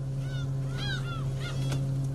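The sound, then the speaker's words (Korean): A flock of seagulls cries around a fishing boat: a few harsh, wavering calls rise and fall over the constant low hum of the boat's engine. “기다리는 젖새우는 소식이 없고 애먼 갈매기 때만 몰려드는 상황.”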